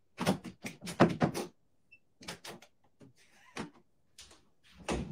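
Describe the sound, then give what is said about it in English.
A kitchen snack pantry door with a newly installed doorknob is rattled and knocked as someone tries to get it open, giving sharp clunks in quick clusters separated by quiet gaps, with a last heavy thump at the end. “He's installing a doorknob on. I guess this is their snack pantry or snack closet in the kitchen.”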